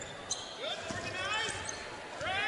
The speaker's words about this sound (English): Guy out front, standing right-hand dribble.